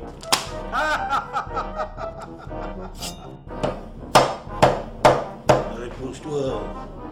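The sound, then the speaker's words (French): Knife chops into a piece of meat: a series of sharp, dry thuds, a few softer ones first, then four heavier, evenly spaced hits near the end. “Mais il va mieux couper, ce morceau de bidoche. Il va mieux couper, oui.”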